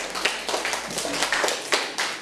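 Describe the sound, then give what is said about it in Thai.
Children clapping for a classmate in a classroom, a few loose, scattered claps of uneven timing against a low murmur of background noise. “โอ้เยี่ยมเลยค่ะปรบมือให้เพื่อนค่ะ”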